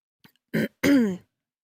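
A person clears their throat: a faint tick, then a short rough rasp and a longer voiced, guttural rumble, alone in the quiet.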